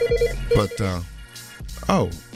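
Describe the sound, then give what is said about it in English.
A telephone rings with an incoming call, giving short, repeated electronic trill tones. Voices talk loudly over and between the rings. “We got our first call here tonight. Oh, you got a caller?”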